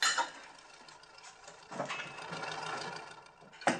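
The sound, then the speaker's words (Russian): A lid is set on a glass decanter in a canteen, giving a few short, bright clinks with faint rattling and tapping between them, quiet and without voices. “Поразмыслив, рабочий закрывает крышкой графин и выходит из столовой.”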